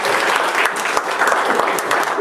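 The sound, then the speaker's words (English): Loud, dense applause from a church audience, many hands clapping in a continuous rush with scattered crisp individual claps throughout. “If you believe that, give the Lord a hand of applause and bow.”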